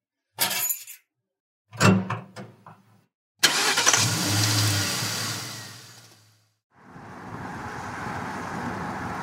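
A car on a road trip: a few short thumps, then the engine starts and runs with a loud, steady hum that briefly drops away before a continuous, broad road rumble takes over as it drives.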